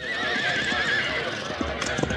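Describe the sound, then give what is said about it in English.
A horse whinnies, then a few hooves clip-clop. The horses belong to a cowboy outfit readying for a long trail drive. Steady background noise runs throughout. “All right, stop busting them horses into Bermuda. They got 1,000 miles of trail ahead of them.”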